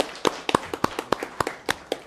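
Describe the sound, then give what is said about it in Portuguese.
Sparse hand claps from a few people at a Brazilian Senate committee session, about a dozen sharp, uneven claps in a loose rhythm with quiet gaps between them. “Eu peço uma salva de palmas para os três aí.”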